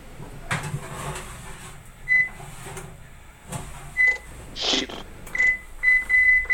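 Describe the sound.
An oven door and the middle rack clunk softly as a tourtière dish goes into the oven. Several short, high electronic beeps from the oven controls are heard alongside.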